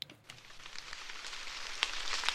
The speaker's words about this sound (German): Leichter Nieselregen prasselt auf den Maisacker von Thorsten Sturm aus dem fränkischen Obernzenn.